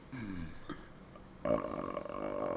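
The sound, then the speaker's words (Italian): A voice imitating a quiet, long burp, starting soft and then swelling into a louder, rough, sustained croak that carries on to the end. “Che è valido come rutto comunque. Lo fa così, ma per un minuto e mezzo.”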